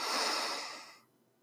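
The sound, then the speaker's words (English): A single slow, deep breath drawn in during a guided breathing exercise, a soft airy rush that holds steady and then fades away, with no talking over it. “Let us begin by taking one deep breath, 4 seconds in, 2 seconds hold, and then 6 seconds out.”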